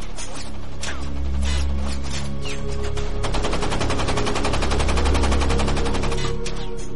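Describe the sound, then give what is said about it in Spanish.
Gunfire in a naval battle where enemy fire hits a vessel's crew: rapid machine-gun bursts and scattered shots crackle continuously over a heavy low rumble, loud and sustained throughout. “Pero recibe un disparo.”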